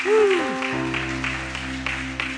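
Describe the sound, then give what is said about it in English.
A church audience in Ohio claps hands in a steady rhythmic series, faint against a held musical chord that sounds throughout. “Give the Lord a hand clap.”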